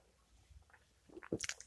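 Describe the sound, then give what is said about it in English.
Sipping a first morning cup of coffee with half and half: a few soft, quiet slurping and mouth sounds near the end, with no talking. “I'm here with my first cup of coffee.”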